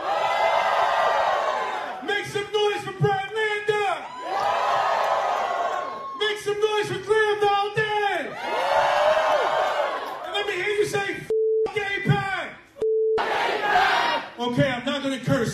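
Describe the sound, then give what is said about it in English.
A political rally crowd cheers and shouts loudly in several rising swells. Between the bursts of cheering, a single voice talks. “Make some noise for Daria Lisa!”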